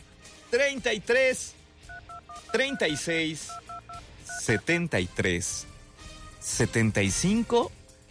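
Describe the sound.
Telephone keypad dialing tones: a quick run of short, steady two-note beeps, several in a row, sounding between stretches of loud voice.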